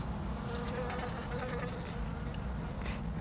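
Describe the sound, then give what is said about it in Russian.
Flies swarming and buzzing over a table set with a faience plate and scattered boiled potatoes, a faint, steady, continuous drone with no talk. “взмахом руки отгоняет роящихся над столом мух”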